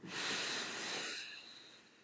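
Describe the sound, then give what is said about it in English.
A slow, deep breath drawn in, soft and airy, swelling over the first second and then fading gently as it is released. “let's do another collective inhale, exhale. So take a deep breath in.”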